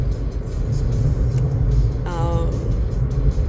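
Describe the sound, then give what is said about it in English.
Steady road noise from a car driving on a road while passing a semi truck: a constant low rumble and engine drone, with a brief wavering tonal whine about two-thirds of the way through. “Sorry, I'm focused on driving. I was finally able to pass that semi, and I'm very focused on driving right now because, like, I can actually move.”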